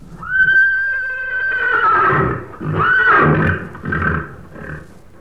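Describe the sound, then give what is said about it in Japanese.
Horse neighing: a loud, drawn-out whinny with a clear, wavering tone, followed by further shaky, rising and falling whinnying bursts that trail off over about five seconds. “あ、この声はなんだ？聞いたことのない変な声だにゃ。 馬なのだ。 当たり。”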